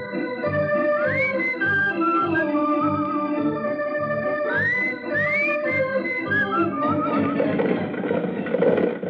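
Trigger, Roy Rogers' horse, neighs in a Western story with a few loud whinnies, each a bright tone that rises sharply in pitch over a steady tonal background.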